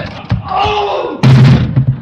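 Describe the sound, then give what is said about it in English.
A heavy thud as a man falls to the floor, striking the back of his head, after a doorknob comes away in his hand in a smoky, burning school. A sudden loud crash-like impact cuts in after some tonal sound, then a few smaller knocks follow. “The doorknob came away in his hand. Oh, let me help you up, Mr. Stone. Mr. Stone? He fell on the back of his head, Mr. Conklin. He's unconscious.”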